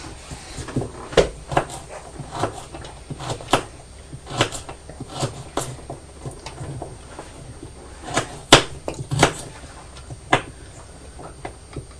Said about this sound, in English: You're tipping it up. You're tipping the trailer up with all the carrots in.